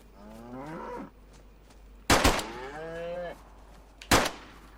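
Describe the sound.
Cow mooing in a survival video game while being shot at with a pistol: two drawn-out moos, each followed by a sharp, loud gunshot.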